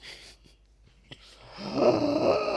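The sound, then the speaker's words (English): A long, deep breath drawn in slowly, rising from faint to a loud, rough, snore-like rush of air over the last second. “That's not the last time he's going to take a long, long, deep breath.”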